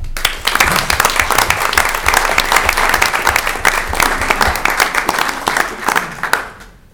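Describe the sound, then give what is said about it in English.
An audience applauds to welcome a speaker, a dense, steady wash of clapping that holds for several seconds before fading at the end. “Please help me welcome Jawan Hall.”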